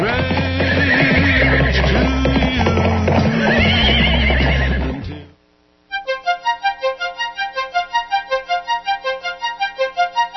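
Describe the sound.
A horse neighs loudly in a long, wavering whinny. After a brief silence, a steady, even pulsing rhythm follows.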